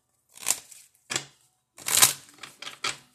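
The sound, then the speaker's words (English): Tarot cards being shuffled and pulled: a handful of short, crisp brushing bursts with sharp papery attacks, separated by brief silences. “so let's go ahead and pull our regular cards”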